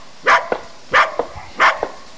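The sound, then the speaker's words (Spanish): A yellow dog barks three times at an even pace, each mid-pitched bark followed by a short, sharper yip, with no voices. “Iba caminando y entonces ¿qué vi? Un perro amarillo mirándome a mí.”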